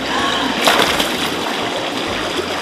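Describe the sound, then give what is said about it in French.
A person diving into water for a swim, with a steady rush of splashing and sloshing and one sharper splash burst early on, with no talk. “D'abord, tu inspires, ensuite tu plonges. Main devant, j'inspire et emplis mes poumons d'air avant le plongeon.”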